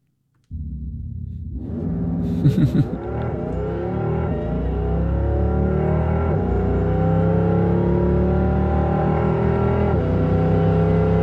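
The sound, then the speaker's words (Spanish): Simulated eight-gear engine sound of a Porsche Taycan electric car: after a short silence it starts up and climbs steadily in pitch, with a few abrupt shift-like breaks, staying loud and continuous alone. “Porsche lo que acaba de presentar es algo artificial, que es simular 8 marchas en el Porsche Taycan. O sea, solo el ruido.”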